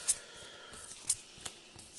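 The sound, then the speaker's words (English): Playing cards being drawn from a deck during a tabletop card game, five cards in all. Several short, crisp, quiet snaps and slides stand out against soft rustling, with no talk. “So I've got the cards in hand, so I'm drawing 5.”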